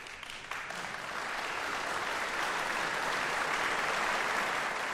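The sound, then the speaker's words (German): Audience applause after a piano concert of a Liszt sonata, a dense steady wash of clapping that swells slightly after the first second and stays full and even, with no talk over it. “Hier kommt also jetzt noch der Beifall des Bremer Publikums.”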